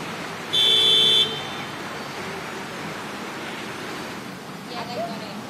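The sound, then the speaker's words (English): Cars driving through a small shopping district in Queensland give a steady, broad traffic hiss. A brief high electronic beep sounds near the start. “that's the sound of cars driving through a small shopping district of Queensland as a group of wildlife experts capture a crocodile.”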